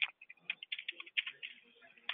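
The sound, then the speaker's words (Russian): Someone types on a computer keyboard in a quick, irregular burst of light clicks and taps. “Чё там печатаешь?”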